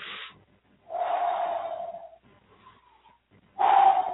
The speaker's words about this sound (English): When you inhale, instead of your shoulders going up, keep your shoulders down. Just move your body. Move your stomach out.